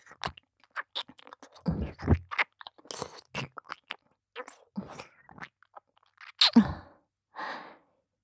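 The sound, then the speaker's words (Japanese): Wet kissing and lip-smacking mouth sounds close at the ear in an intimate roleplay, with many short, crisp smacks and pops spaced irregularly, a breathy sigh among them, and quiet gaps between, with no talking. “愛おしいご主人様のお耳と、口づけをさせていただきますね。”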